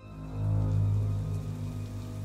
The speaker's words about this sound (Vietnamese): Vừa vào đến hiên nhà thì mưa cũng đã rơi như trút nước.